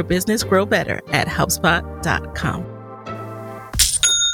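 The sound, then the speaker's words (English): An online store's sale notification ding: a short, bright chime that strikes at the very end, right after a stretch of talking. “You hear that? That is the sound of another sale on Shopify,”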